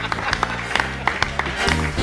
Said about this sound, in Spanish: ¡Aplauso! ¡Muchas gracias!